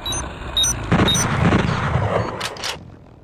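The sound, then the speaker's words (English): Gunfire from a manual bolt gun in an audio-only first-person shooter video game: a few sharp, booming shots with rumbling tails, plus short high electronic tones and a final hissing burst. “There are first-person shooters like Shades of Doom, which is inspired by the Doom franchise. Your manual bolt gun.”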